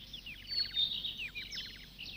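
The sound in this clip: Pet bird chirping in rapid runs of short, high, downward-sliding chirps, faint and steady throughout with brief gaps between bursts.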